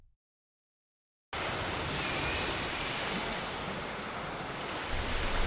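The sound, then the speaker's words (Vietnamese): Gently rippling sea waves, slightly murky, wash against the shore after a short silence, forming a continuous, even roar of surf with a soft rush of wind. “Ông đứng nhìn những đợt sóng biển lăn tăn, hơi đục và ngã sang màu vàng.”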